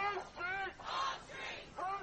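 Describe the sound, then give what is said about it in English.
A protest crowd chants in the street in support of refugees, several rhythmic bursts of massed voices rising and falling in a repeated cadence. “Carrying signs saying refugees welcome and chanting, "Whose streets are streets?" People turned out in force to protect asylum service centres and the offices of immigration attorneys.”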